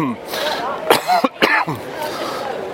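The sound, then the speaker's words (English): A man quickly clears his throat before preaching outdoors in a city square in Hull: a few short, rough bursts over a faint steady background murmur. “Quick clearing of the throat.”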